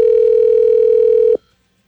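A loud, steady single-pitch telephone dial tone hums while a call is being placed, then cuts off abruptly, leaving silence.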